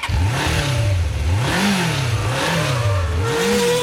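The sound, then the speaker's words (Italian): Loud car engine revving in a motorsport setting, its pitch swelling and dropping in a few repeated cycles over a continuous mid-range roar, with no voices. “Adesso, per chiudere, accendiamo i motori.”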